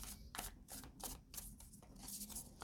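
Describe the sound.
Tarot cards being handled and shuffled, heard as a series of faint, crisp rustling and flicking bursts at an uneven rhythm, with no other sounds.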